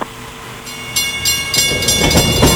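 A train running on rails, its rumble building steadily louder, with rhythmic clattering bursts from the wheels over a continuous roar.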